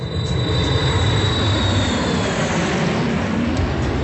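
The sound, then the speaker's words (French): An airplane sound effect in a comic wrestling sketch gives a steady, loud engine roar. A thin high whine fades out after about two seconds, and the roar goes on alone. “Qui monte dans une voiture, puis dans un avion?”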